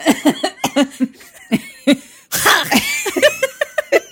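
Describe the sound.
A person vocally imitates a ghost's phlegmy breath with a raspy, noisy, gurgling exhale that stands out among short, rhythmic, voiced bursts of laughter.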